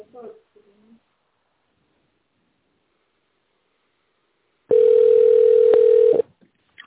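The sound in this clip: A telephone ringback tone sounds while a call connects: a single steady, mid-pitched tone of about a second and a half, after a brief voice fragment and a stretch of silence.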